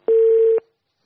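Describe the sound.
A single telephone tone signals an incoming call: one loud, steady electronic beep lasting about half a second, heard alone with silence after it.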